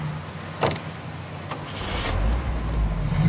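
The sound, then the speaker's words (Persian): A taxi car pulls away and drives off, its low engine rumble swelling through the second half after a brief thump early on. “تاکسی حرکت میکنه فرهاد رفتن گلی رو تماشا میکنه تاکسی در حال حرکته”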